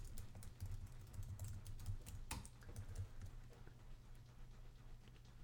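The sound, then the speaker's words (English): A web address is typed on a computer keyboard in quick, faint, irregular runs of many small key clicks, with no voices over them. “Let's see what happens when I type it in.”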